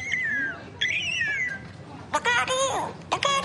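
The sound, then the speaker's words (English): Bird calls: a few high, whistled notes that sweep and bend in pitch, followed by busier, denser bursts of chirping. “You hear that? Sounds like a bird saying, look out here, look out here.”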